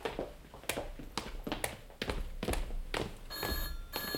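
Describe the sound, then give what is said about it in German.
A telephone rings in a night watchman's office: a bright, metallic bell trill starts near the end, after a series of sharp knocks and thumps. “Das ist das Telefon im Büro des Nachtwächters. Ah ja. Ja, wahrscheinlich der einzige Apparat, der hier noch funktioniert.”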